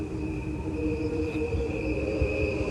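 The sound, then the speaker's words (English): Crickets chirping at night in a backyard, presented at regular speed and slowed down: a steady, continuous high-pitched trill over a dense, lower buzzing layer, holding an even loudness throughout with no talk. “What you are hearing is a recording of crickets. There are two tracks. One is played at regular speed and the other is a slowed down version.”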